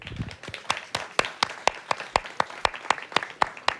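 Concert audience clapping in unison as a band's guitarist is introduced, a brisk, evenly spaced beat of about a dozen sharp claps, crisp and moderately loud.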